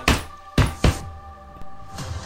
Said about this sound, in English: Now roll another d20 and add your